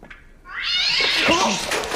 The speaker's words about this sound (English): What is up with that cat? Is someone throwing it? Let's not keep moving, because there is an insane cat down here.